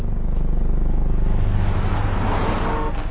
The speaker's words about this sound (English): Quiet. There's a car coming.